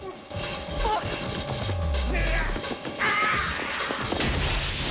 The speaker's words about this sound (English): to Peoples, who drags him onto his feet, then pushes him backwards through the window.